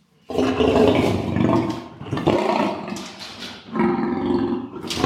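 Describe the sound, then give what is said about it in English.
A big cat making a deep, rough grumble, loud low growling in about three long stretches, heard alone with no talk. “Just that little noise he's making, you can hear he's got a really deep grumble. It's almost like a Harley Davidson roar.”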